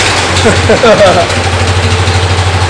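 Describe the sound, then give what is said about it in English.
A car engine idles with a damaged muffler, giving a loud, steady, low rumble that holds evenly throughout, while a voice speaks briefly near the start. “Now that will probably be pretty loud. So that the muffler kind of got screwed up on it too, so that's probably why it's loud.”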